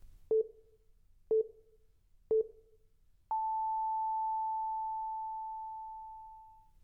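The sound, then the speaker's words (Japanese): Tones from a time signal app: three short, identical mid-pitched beeps at even one-second intervals, then a long pure sustained tone that slowly fades out, all faint against near silence. “時報アプリです。この音って結構癖になるんですよね。連続で聞いていると脳がとっても気持ちよくなるんです。”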